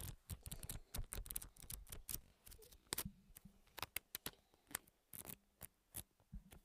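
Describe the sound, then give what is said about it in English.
Paper pages are bent back and let go one after another, producing many quick, dry flicks and snaps in an irregular rhythm, faint and with no voices. “We were flipping paper, couldn't really think of another word for it, so that's what we call it. You know, when you, like, pull the pieces of paper back and bend it and then slowly let it go down.”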